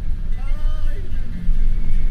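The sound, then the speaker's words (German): A bus engine rumbles as the vehicle pulls away from Uyuni, Bolivia, and climbs a winding serpentine mountain road: a steady, loud low drone with a thin, wavering whine above it. “Mit einer kleinen Verspätung startet der Bus in Uyuni. In Serpentinen klettert der Omnibus die Berghänge hinauf.”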